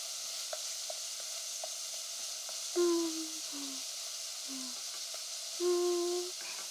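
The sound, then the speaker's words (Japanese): Steady sizzling hiss of onions frying in a pan, continuous throughout, with a couple of brief louder tonal whines rising over it. “焼き色がついてきたら、玉ねぎも炒めてっと。”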